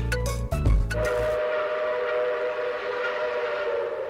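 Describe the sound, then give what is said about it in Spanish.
A metro train arriving at a station, opening with a few sharp clanks and a heavy low thump, then settling into a steady rumble under a sustained high electric whine. “Próxima estación Floresta.”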